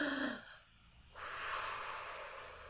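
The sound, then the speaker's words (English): A deep cleansing breath: a short breathy burst, a brief pause, then a long, steady, airy breath that lasts to the end, soft and alone with no talking. “Deep cleansing breath.”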